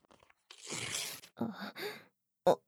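Paper-like ripping as a tarot card is torn, heard as two rough, crackling tearing bursts followed after a short pause by one brief, sharp final sound, with no talking.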